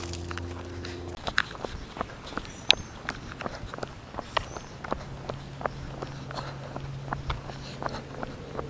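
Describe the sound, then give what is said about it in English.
Footsteps of a runner walking during a walk break on the Pinellas Trail make many crisp steps in an even, steady rhythm over a faint low hum. “That's a walk break. So I've walked through an entire run segment.”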